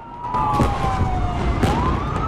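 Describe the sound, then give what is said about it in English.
An ambulance siren wails as the vehicle races through city streets, its loud tone sliding slowly downward and then climbing again near the end. “An explosion erupts amongst buildings, and an ambulance races through streets and speeds past litter all over a street corner.”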